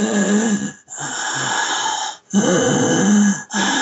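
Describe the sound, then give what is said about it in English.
A voice imitates labored, wheezing breathing: a few long, raspy, snore-like breaths, each split by a brief silent pause, loud and alone without other sound. “I was breathing very labored, and I had this thought in my head, because I was sounding like this,”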